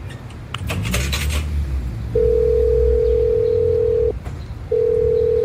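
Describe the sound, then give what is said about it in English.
A payphone gives a steady, loud, mid-pitched dial tone after a burst of clattering clicks from handling the receiver. The tone holds for about two seconds, cuts out briefly after a click, then resumes. “I found a payphone and called her.”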